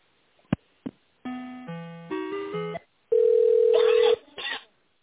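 Telephone line tones while a business call is transferred: a couple of sharp clicks, a series of stepped electronic tones at changing pitches, then one long steady tone and a brief final blip, all with a narrow phone-line sound.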